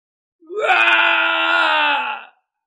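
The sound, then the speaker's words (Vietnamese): A man's loud, anguished scream rises quickly at the start, then holds strained and steady for about two seconds before cutting off, with nothing else heard. “Truyền đến một tiếng thét to không cam lòng, Thạch Trung Hiên”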